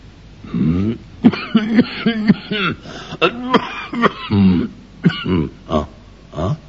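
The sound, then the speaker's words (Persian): A storyteller's voice imitating a cough: a few short, throaty coughs and throat-clearing grunts broken up by brief voiced sounds. “مرد ثروتمند خیلی ترسید، به طوری که چند لحظه صداش در نمی اومد، ولی بعد سرفه‌ای کرد و گفت:”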